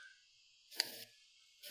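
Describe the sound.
A Zippo lighter lid snapping shut, heard as a sharp, bright metallic click out of near silence, with a second crisp click right at the end.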